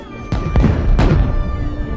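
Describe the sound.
Fireworks going off during a celebration: a few sharp, booming bursts in the first second, each with a short rumbling tail, heard over a steady tonal background.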